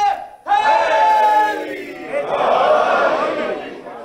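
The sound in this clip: A crowd at a rally roars back a slogan in answer to a leader's call, a loud chorus of many voices in two sustained swells, the second broader and fading at the end.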